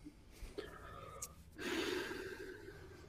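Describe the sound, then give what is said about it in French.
A woman draws a sharp, audible inhale, a sudden rush of breathy air held for over a second, preceded by a few faint clicks and small noises. “Oula, elle inspire.”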